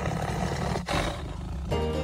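A tiger roars in a deep, rough, sustained rumble. The loud roar breaks off briefly partway through, then carries on to the end with no voices.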